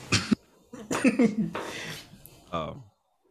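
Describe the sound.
Coughing and throat clearing from phlegm in the throat: a few rough, raspy bursts, with a short first cough, a cluster of throaty clearing sounds in the middle and a final harsh cough, then silence.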